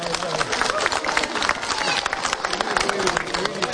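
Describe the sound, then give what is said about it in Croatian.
Audience applause for a children's dance performance by Montessori kindergarten pupils at a folk event in Pazin: a thick, continuous wash of many hands clapping, steady and fairly loud with no pauses. “Nagradite i njih jednim velikim pljeskom.”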